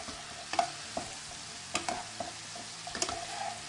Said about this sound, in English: Using our spoon, we're going to flip it one more time.